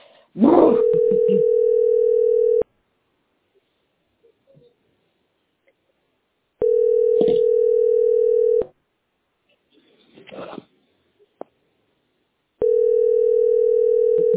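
A telephone tone heard while placing a call sounds three times as long, steady, mid-pitched beeps of about two seconds, each followed by a longer silence with faint rustling between them.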